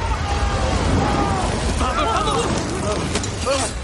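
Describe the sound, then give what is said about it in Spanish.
Roaring fire breath from the dragon Smaug fills a hall in the 2013 fantasy film The Hobbit: The Desolation of Smaug, a continuous rushing blast with booming bursts under music while a voice speaks over it. “Smaug escupe fuego. Smaug llena la sala de fuego.”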